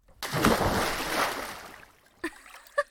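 Splash of someone jumping into water: a sudden heavy surge of churning water that peaks quickly and fades over about two seconds, followed by a couple of brief, smaller sounds.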